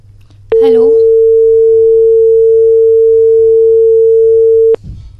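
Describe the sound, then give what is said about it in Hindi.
A continuous telephone tone from a call that failed to connect: a steady mid-pitched beep held unbroken for about four seconds, with a voice heard briefly at its start. “Phone किसी कारण से connect नहीं हो पाया है।”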